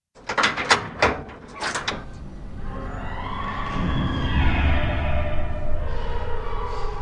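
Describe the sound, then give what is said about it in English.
A gate lock clicks open with a few sharp metallic snaps, then the bolt slides back and the gate swings open in a long, steady grinding creak that carries on to the end. “Automatically, the lock opened, the bolt slid back, and the gate swung open.”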